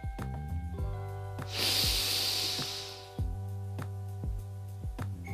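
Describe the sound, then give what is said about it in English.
A deep breath in: a soft, airy inhale rises and lasts about a second and a half over steady background music with ringing tonal notes, then fades away. “And here we start. Breathe in.”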